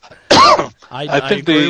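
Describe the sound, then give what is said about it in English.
A harsh, loud cough bursts out once, followed by someone talking. “And I'll turn it over to the rest of you because I'm coughing.”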